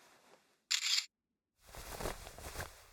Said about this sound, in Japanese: ちょっとそのままでいて、写真撮るから。